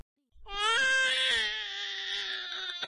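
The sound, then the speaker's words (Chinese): An infant grandson cries in one long, loud, continuous wail that is high-pitched and strained. The cry holds steady without pause until it cuts off near the end. “哎呀，我的大孙子怎么哭了呀？哦哦，不哭啊！”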